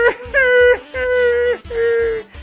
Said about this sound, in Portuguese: Ala, meu Deus, tá chorando, é?